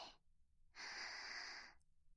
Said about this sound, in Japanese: ゆっくり息を吸って、